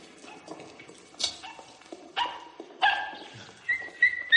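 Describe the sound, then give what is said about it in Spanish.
A dog in a home barks and whimpers: a few short, fairly faint yips and whines, ending in high, thin whimpering tones. “no, ahora no, perro, ahora no. ¿Eh, perro?”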